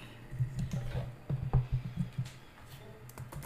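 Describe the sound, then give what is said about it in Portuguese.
Typing on a computer keyboard into a notepad produces many quick, light key clicks in an uneven rhythm over a low, steady hum. “eu vou abrir aqui o meu bloco de notas porque eu acho que tem uma coisa importante e até curiosa para passar para vocês. Vamos lá. Deixa eu abrir aqui, ó. Escrever aqui.”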